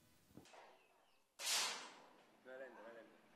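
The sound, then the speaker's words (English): A single sharp gunshot at a recreational shooting range in Havana Park: a loud crack with a decaying tail. A softer click comes before it, and a brief voice follows. “A recreational shooting range in Havana Park. You've got one shot left.”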